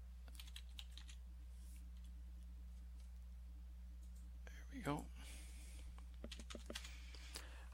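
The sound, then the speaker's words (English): Faint keystrokes on a computer keyboard as a stock ticker for the German Bund is typed in: a few sparse, light clicks over a low, steady hum. “Let me just type in the ticker for the German Bund.”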